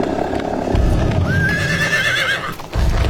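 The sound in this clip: Horses ridden along a river with a dragon named Katla in pursuit: a loud, high whinny rises and wavers over rumbling hoofbeats and a noisy background.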